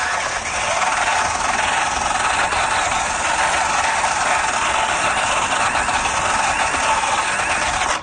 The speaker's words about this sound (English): cleans the hub up, rotates obviously on any drill that it'll fit, which is almost all of them. Just comes with a really abrasive pad here that you can change out